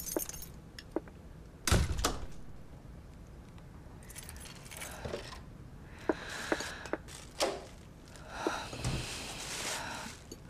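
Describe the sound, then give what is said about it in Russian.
Keys jangle and scrape as they are inserted into the lock of an apartment door, followed by the door opening, all faint and intermittent with scattered metallic clicks and rattles. “Вставляет ключи в замок и открывает квартиру.”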